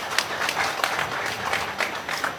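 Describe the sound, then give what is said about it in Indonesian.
Audience applause at a wayang puppet theatre festival, a steady patter of many hands clapping at moderate loudness, with no talk over it. “Tepuk tangan kanggo wayang, tepuk tangan, tepuk tangan.”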